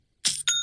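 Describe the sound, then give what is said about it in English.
A chime for a new sale in a Shopify online store: a quick bright strike, then a second clear ding whose high, pure ringing tone sustains evenly. “You got to love that sound. It's the sound of another sale being made on Shopify.”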